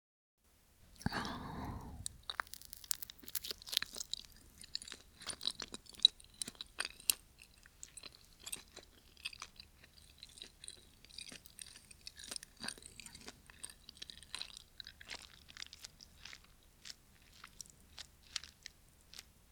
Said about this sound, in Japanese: 次はみたらし団子。それじゃあ、いただきます。